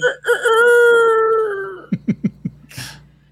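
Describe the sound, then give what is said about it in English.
A rooster crows once in a long, loud, harmonic call lasting about a second and a half, its pitch sagging slightly toward the end. Four short clucks and a brief noisy burst follow. “Oh, God, that stupid rooster.”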